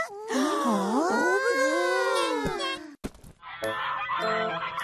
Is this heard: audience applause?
no